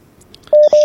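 Telephone line tones after a call is cut off: two loud, steady, mid-pitched electronic beeps, each just under a fifth of a second with a short gap between them, preceded by faint clicks.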